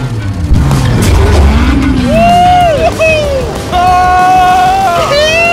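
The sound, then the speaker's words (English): Loud, expensive sports cars race around a private racetrack, engines roaring with rising and falling revs and a sustained, high-pitched engine whine that swells and drops throughout. “There's just something so masculine about driving overpriced, loud cars. On a private racetrack.”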